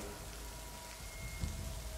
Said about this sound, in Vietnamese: mưa rơi vô tội vạ đập vào mái tôn vang lên những âm thanh chát chúa như muốn chọc thủng màng nhĩ